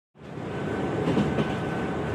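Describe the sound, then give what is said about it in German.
Train from Warsaw travelling: a steady, dense rumble of rolling carriages that starts abruptly and holds at an even loudness throughout, with no clear wheel clacks. “Im Zug aus Warschau sitzt eine junge Frau, Maria Sklodowska.”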